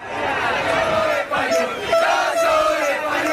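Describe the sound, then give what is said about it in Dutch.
Spaniards cheering in Gibraltar at night: a dense, loud, continuous roar of many shouting voices, with whistle-like high tones and chanting running through it. “Ja, maar nee, dit was blijdschap van Spanjaarden in Gibraltar.”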